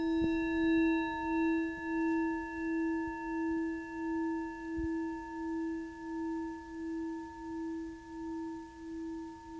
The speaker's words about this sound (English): Ooh, listen to the bowl. Listen to the bowl. Stop. If you heard that initial bong, it keeps going.